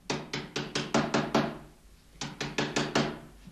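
Knocking on a house door comes in two sharp bursts: seven quick knocks, a short pause, then five more. The knocks are loud and hurried, with no voices.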